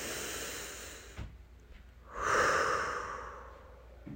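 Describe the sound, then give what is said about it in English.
Slow, deep breathing: an airy, hissing breath fades into a brief lull, then a longer, louder breath swells and slowly tapers off. No voice is heard. “I'm going to put my hand on my heart and breathe. Nice deep breaths. One more.”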